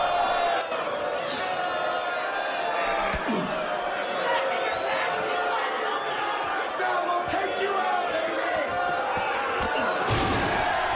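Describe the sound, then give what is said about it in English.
A wrestling crowd cheers and roars without a break as a wrestler is smashed in the back, grabbed and thrown against the corner post, with a few heavy thuds cutting through the continuous din. “Ram gets smashed in the back, grabbed and thrown against the corner post.”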